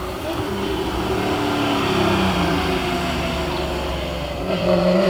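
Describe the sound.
Car engine droning steadily during a drive-by, its harmonic tones shifting as it accelerates, loud throughout and swelling again near the end.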